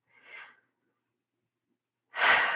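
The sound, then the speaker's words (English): Forced breathing for a meditative breath pattern: a soft, airy inhale through the nose, a pause of silence, then a louder, rushing exhale pushed out through the mouth. “which would be forced in through the nose, forced out through the mouth. It sounds like the ocean, and it may be a little bit uncomfortable at first because it is work,”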